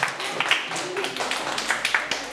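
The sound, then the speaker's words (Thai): Students in a classroom applaud their classmates for a correct answer, with many scattered hand claps of uneven rhythm and a voice speaking over them. “ถูกต้องครับปรบมือเพื่อนเพื่อนหน่อยครับ”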